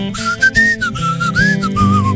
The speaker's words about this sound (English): It's a whistle along, okay? You want to participate? Oh, all right. Here's your part. It goes like this.